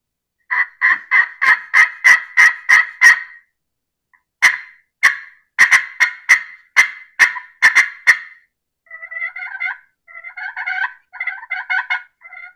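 Turkey calls worked on a slate call: a run of crisp, evenly spaced yelps, a short pause, a second series of yelps, then softer, quicker clucking notes to the end, with no talk.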